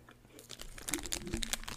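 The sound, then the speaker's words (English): Quiet crinkling of a Cheez-It wrapper mixes with crunchy, smacking chewing close to a microphone, in a few short irregular bursts. “You don't want me to start on this damn microphone with my smacking. If I can't do nothing else, I can smack. Cheez-It paper.”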